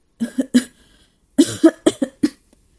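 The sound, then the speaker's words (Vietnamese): A woman coughs heavily in two fits: a few harsh, chesty bursts, a short pause, then several more hacking coughs in quick succession, loud and alone with no talk. “Dứt lời, nàng lại bắt đầu ho sù sụ.”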